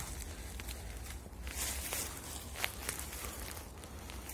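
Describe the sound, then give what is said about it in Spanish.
Faint footsteps from someone on a long walk, a few soft, irregular steps scuffing over a low, steady background hush. “Ya llevamos casi una hora y media caminando.”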